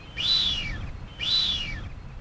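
Two drawn-out, high whistles from male blue-footed boobies courting a female, each call arching upward and then sliding down. The pair of calls are evenly spaced and clear over a low background hiss.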